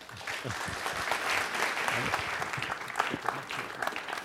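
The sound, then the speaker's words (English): Audience applause welcoming a speaker at a book prize lecture, a dense, steady wash of many hands clapping that holds at an even level for the whole few seconds. “Please give a warm welcome to Mr. Omer Bartov.”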